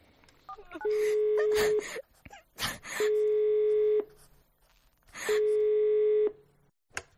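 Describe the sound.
A telephone call being placed to a support helpline: a few brief electronic beeps, then three long, steady ringing tones, each about a second, separated by short gaps.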